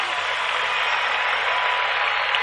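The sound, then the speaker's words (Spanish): Steady, dense applause from an audience, a continuous even wash of clapping with no breaks and no clear talk over it. “para el maestro, los aplausos. Fuertes aplausos. Fuertes aplausos.”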